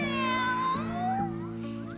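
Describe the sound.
Cat meowing in a children's animal song: two drawn-out meows with sliding pitch, the second shorter and softer, over a steady low background tone.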